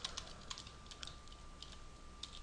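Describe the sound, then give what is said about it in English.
Light typing on a computer keyboard: a few scattered, faint clicks at an irregular pace, with a thin steady tone running beneath them. “Hold on a second. Let me type it in here.”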